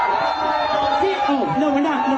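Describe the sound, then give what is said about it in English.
A crowd boos a speaker off the stage at a police event in Staten Island, with a sustained drone of boos and crowd chatter throughout. “Mamdani getting booed off the stage.”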